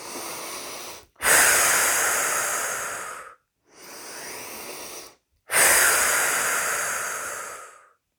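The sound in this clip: Slow breathing during a guided relaxation exercise: four long, airy breaths separated by short silences. The first is cut off at the start, the third is softer, and the other two are loud, each fading gradually with no voice over them.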